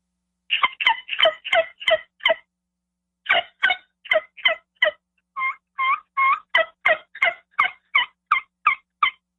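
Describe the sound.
Turkey yelps made on a hand-held yelper call. Three runs of sharp, raspy, evenly spaced notes are separated by short pauses, with the last run the longest, all at moderate loudness and with no talk.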